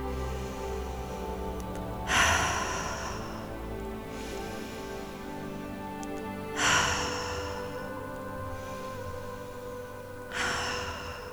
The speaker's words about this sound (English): I invite you to bring in some deep cleansing breaths to start this practice.